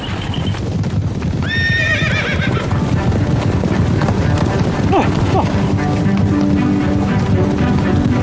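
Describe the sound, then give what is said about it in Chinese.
Purebred Qinghai horses, a breed native to the Tibetan Plateau, gallop with a dense, continuous clip-clop of hooves, loud and steady throughout, with a neigh rising early on. “这个纯种的青海葱马现在已经不多了，这里的牧人都知道，天马要是奔跑起来，我们骑手就会像飞一样，那才叫一个爽。”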